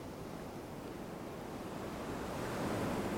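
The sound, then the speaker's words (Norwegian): Ocean waves wash in a steady, broad surf roar with no distinct breaks, growing slightly louder toward the end; no voices. “og lyden av bølgene med inn- og utpust.”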